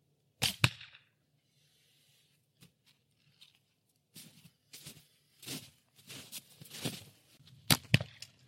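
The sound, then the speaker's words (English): An arrow shot from a bow hits the target with a sharp, snapping double crack near the start. Several softer knocks and clicks follow in a scattered run later on, all fairly faint. “You see right there, that shot was just dead where I was looking. So, I don't know. I haven't shot the bow in, I don't know, a couple months.”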